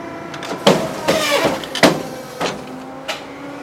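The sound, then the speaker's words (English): A computer-controlled cutting machine trims A7 cards with motor whirs and sharp clunks. The sound comes in a few distinct bursts separated by short pauses. “The machine is computer controlled, so each product that gets cut has a program number assigned to it. The program sets the finished cut size and the machine automatically adjusts”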